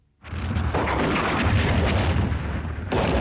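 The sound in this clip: A tank shell explodes behind a hill during a battle at dawn, a sudden loud blast that swells into a sustained, deep roaring rumble lasting several seconds.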